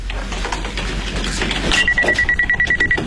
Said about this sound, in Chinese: 恰好此时电话铃响。